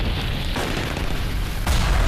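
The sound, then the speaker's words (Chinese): A loud explosion at a military barracks during a night attack: a dense, sustained rumbling roar that surges heavier near the end. “被巨大的爆炸声惊醒的北大营官兵们”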